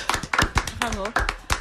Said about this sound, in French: On peut nous applaudir.